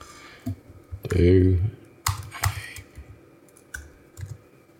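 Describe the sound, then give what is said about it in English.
Someone types on a computer keyboard, entering a search into Google. A few quick clicks and taps sound between and beneath people talking. “So go to Google and type in do a barrel roll. Do a barrel roll and then just hit enter.”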